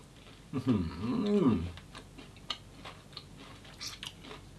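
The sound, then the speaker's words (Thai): Chewing crisp old-style Thai khanom krok coconut pancakes with a plain topping, eaten with granulated sugar and made from freshly ground batter: a short voiced sound, then a few faint, crisp clicks of biting and crunching. “กรอบนอกนุ่มในละลายในปากหอมคุณผู้ชมครับ”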